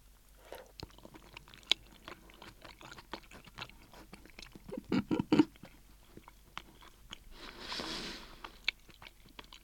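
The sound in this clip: Quiet chewing and biting on plain boiled tofu cooked in a bland supermarket soup base: scattered soft clicks, then a short cluster of louder bites midway, followed by a brief breathy rustle.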